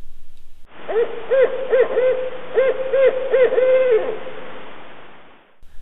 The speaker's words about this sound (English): That's the sound of the barred owl, one of my favorite night sounds when I'm out observing.